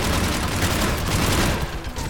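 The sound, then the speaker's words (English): A mounted turret fires in a video game, producing a loud, dense barrage of rapid shots that blur into a continuous rattling roar, with a slight dip near the end. “Mounted turret.”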